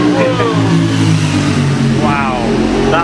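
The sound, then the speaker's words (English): A superbike motorcycle revs as it goes past on a street in downtown LA, a loud engine roar running under people talking. “That was a bit of a super bike going past.”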